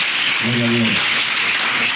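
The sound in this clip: A church audience applauds the candidates about to be baptized. Steady, dense clapping runs the whole way through, and a brief voice rises over it near the start.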